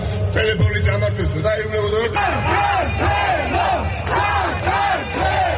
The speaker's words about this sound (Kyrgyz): Тбилисинин башкы Руставели проспектисинде уюшулган нааразылык митингине миңдеген адам чыкты.